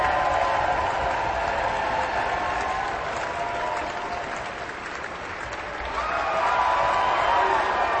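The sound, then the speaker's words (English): Enthusiastic concert-hall audience applause at the triumphant close of Mahler's First Symphony: dense, sustained clapping that dips slightly mid-way, then swells again as the orchestra stands. “enthusiastically applauding, as they often do at the end of Mahler's first symphony. A wonderful triumphant ending there.”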